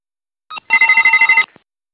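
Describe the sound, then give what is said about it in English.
Electric ringing of a stock exchange bell marking a China IPO listing: a brief burst, then a loud, steady rapid trill lasting under a second, heard alone. “The ringing is continuing a sign of bullishness for the China IPO market.”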